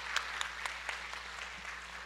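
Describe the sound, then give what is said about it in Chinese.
Church audience clapping in agreement during a sermon: a faint, steady patter of applause with a few sharper claps standing out through it. “同意的来拍手，谢谢。”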